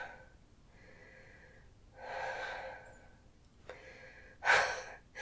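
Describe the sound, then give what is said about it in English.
Someone out of breath and still getting over a cold breathes heavily and rather faintly. A few long, breathy exhales lead to a louder, sharp snorting gasp near the end. “I'm out of breath.”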